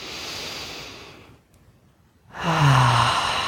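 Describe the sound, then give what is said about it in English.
Deep breathing during a guided breathing exercise: a long, soft, breathy exhale fades into a brief hush, then a fuller breath returns with a faint voiced tone, with no talking. “let's do three more nice, deep, complete breaths into the inner masculine.”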